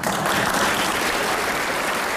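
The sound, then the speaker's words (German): Applause breaks out at a princely wedding ceremony as a dense, even roar of many hands clapping, loud and steady throughout without pauses. “dann brach der Applaus los.”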